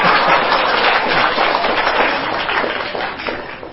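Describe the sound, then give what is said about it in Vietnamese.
An audience applauds during a Buddhist dharma talk. The clapping is dense and steady, then thins and fades toward the end. “Vỗ tay cho cái chuyện đặc biệt.”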